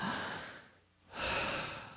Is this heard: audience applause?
no